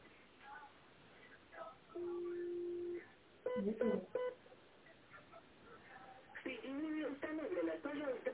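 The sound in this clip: A steady telephone tone sounds for about a second while an office call is being transferred. A few short electronic beeps follow, then people talk.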